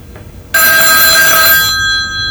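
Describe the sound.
An old rotary dial telephone rings with a loud, bright mechanical bell for about a second, then the ring fades away.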